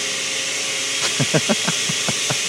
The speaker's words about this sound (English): This is the sound of a blender.